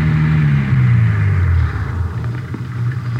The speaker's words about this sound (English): We drove about two miles. She told us to pull up.